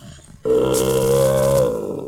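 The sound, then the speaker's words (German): A bear-like growl bursts in sharply after a brief near-silence: one loud, sustained, throaty roar that holds steady for about a second and a half before tapering off, heard alone. “Ah, Hilfe! Ein Bär! Er will uns fressen!”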